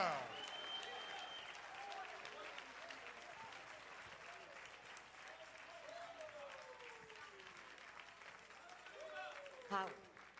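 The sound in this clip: A church audience claps in praise during a bilingual Spanish and English service, sustained quiet applause running throughout, with voices shouting over it and a brief louder burst near the end.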